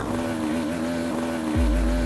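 A struggling two-stroke motorcycle engine with no power and a gearbox that won't change gear drones steadily, with a buzzing tone and a deeper low rumble surging in near the end.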